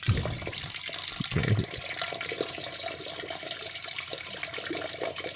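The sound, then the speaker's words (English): A person urinating loudly, a continuous splashing stream of liquid that stays steady and fairly loud throughout with no voices. “It's a very loud pee. Which is amazing.”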